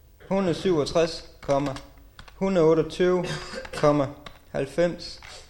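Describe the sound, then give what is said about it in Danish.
Numbers being typed on a computer keyboard as the last figures of a month-long data entry job go in: quick key clicks running under continuous talking. “Ja, og efter knap en måneds arbejde er de sidste tal netop nu ved at blive tastet ind.”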